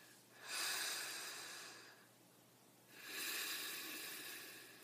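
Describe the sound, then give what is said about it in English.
Breathing as a calming exercise: two long, soft, airy breaths, one a deep intake and the other a slow release of air, quiet and with no talking. “Breathe deeply and release the air slowly.”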